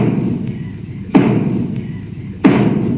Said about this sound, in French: On voyait le public s'installer et on entendait le brigadier et ses fameux trois coups finaux.